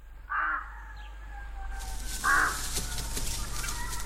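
A hen clucks on a farm: two short, squawky calls separated by a pause, fairly faint over a quiet, slightly noisy background.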